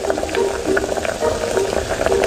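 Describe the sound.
Steady, dense bubbling of swimming crabs steaming in a pot on a bed of cabbage leaves that have started to scorch, a continuous moderate hiss with small pops throughout.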